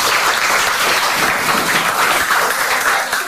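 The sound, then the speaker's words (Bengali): Applause from an audience at a children's performance event after a song, a steady, loud, even wash of clapping that holds for the whole stretch without pauses. “বাহ দারুণ সুন্দর, হাততালি দাও সবাই।”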